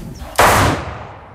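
A single gunshot from a gun fired outdoors over grass: one sharp, loud blast that cuts in abruptly and then fades slowly over about a second.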